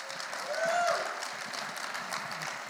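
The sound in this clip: An audience claps excitedly after hearing that a couple is expecting their first child. Dense, steady applause fills the whole stretch, and a brief cheering voice rises over it early on.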